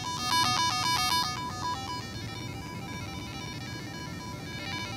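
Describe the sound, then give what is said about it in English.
A micro:bit gadget gives bleepy chiptune synth tones as it is moved. Rapid stepping, changing notes come first, then they settle into steadier sustained tones over a constant background hiss. “as you move it, it makes kind of cool, bleepy, like chiptune synth tone effects.”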